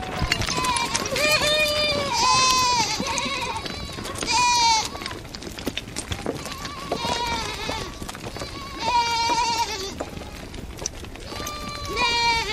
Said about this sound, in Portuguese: as ruas estreitas enchem-se de cabras, saem de todo o lado, correm, atrapalham-se, atropelam-se e formam rapidamente uma enorme enxurrada em direção ao fundo da aldeia.